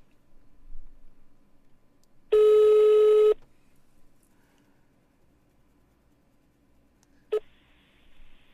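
A telephone rings during a prank call: one loud electronic ring lasting about a second, then near silence, then a brief tone blip near the end over a faint background hum.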